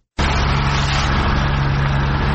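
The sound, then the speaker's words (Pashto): Steady engine drone of a municipal vehicle at work removing road barriers in a town, starting abruptly and running loud and continuous with a low, even hum underneath. “دا د ترینکوټ ښاروالۍ موټر او کارکونکي دي چې د طالبانو په غوښتنه د اورزګان ولایت په مرکز ترینکوټ ښار کې د ولایت مقام مخې ته هغه موانع لري کوي”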